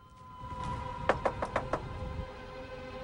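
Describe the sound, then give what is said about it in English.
Knuckles rap five times in quick, even succession on the glass door of a lighthouse. The knocks are short, faint and sharp, over a low background rumble. “goes up to the door and knocks on the glass.”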